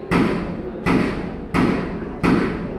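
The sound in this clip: Gunshots at a firearms training center come through as four muffled, heavy thumps, evenly spaced, each fading out before the next.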